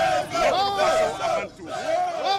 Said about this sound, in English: The man who fled from the presidential palace after a popular uprising 8 years ago has received a hero's welcome. Hundreds of supporters greeted him at the airport.